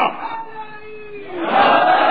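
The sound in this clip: Crowd shouting its response to the Naara-e-Haidri slogan at a religious address: one drawn-out voiced call, then a loud massed roar of many voices swells up and holds to the end.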